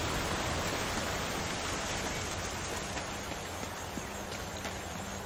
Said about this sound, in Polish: to jest ten wodospad